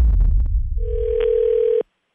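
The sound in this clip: Telephone dial tone as a call begins: a steady, pure, mid-pitched tone that follows a short burst of low rumbling noise, holds for about a second, then cuts off abruptly into silence.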